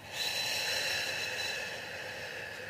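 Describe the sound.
A long exhale through slightly opened lips during a Pilates breathing exercise: a steady, airy hiss lasting about two and a half seconds, alone without talk.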